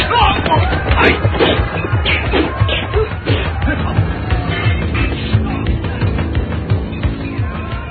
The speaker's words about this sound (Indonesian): Dua senjata perkasa itu beradu hingga memercikan api.